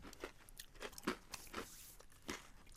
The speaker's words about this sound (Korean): 아, 이건 그냥 딱 맛만 보면은 아몬드랑 크런키인 것 같은데.